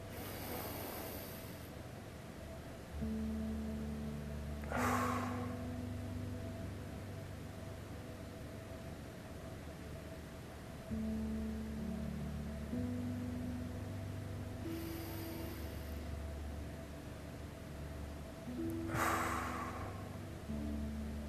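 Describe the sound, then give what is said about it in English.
Slow breathing, in through the nose and out through the mouth: soft, airy breaths rise and fall in two unhurried cycles over steady, sustained low tones. “I breathe in through my nose and out through my mouth, but whatever feels right for you. So this is what it looks like for me.”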